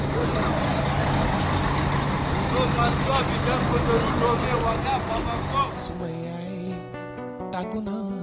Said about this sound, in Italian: Decine di persone si accalcano attorno agli autobus in partenza mentre gli addetti della stazione chiamano le destinazioni.